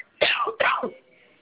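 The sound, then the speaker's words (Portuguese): Two harsh, raspy coughs from a woman with a cold, one right after the other, followed by quiet. “Desculpa que eu estou muito resfriada, eu estou tossindo muito, tá?”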